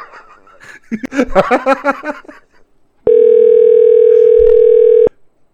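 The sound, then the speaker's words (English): A Google Voice call prompt tone: a single steady, flat telephone beep lasting about two seconds. It comes after a short stretch of voice-like sound and stops abruptly. “Please state your name after the tone, and Google Voice will try to connect you.”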